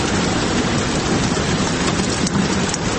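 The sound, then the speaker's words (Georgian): Rain plays from a loudspeaker installed in a room, a steady, dense hiss of falling drops that stays even and loud throughout. “ყოველ შემთხვევაში ოთახში დამონტაჟებული დინამიკიდან გამოსული წვიმის ხმა ოთახს წყლით ავსებს”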